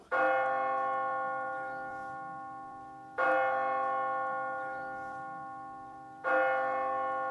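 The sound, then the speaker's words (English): A church bell tolls three slow strokes, each a bright metallic clang with a rich hum that rings on and fades gradually before the next strike. “The bell of St. Mark's.”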